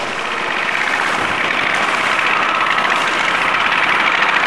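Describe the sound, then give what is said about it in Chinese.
A small motorbike engine runs in a constant, dense drone that holds loud and even throughout, with no talking over it. “骑着他心爱的小摩托，我们的主人公玉儿饼”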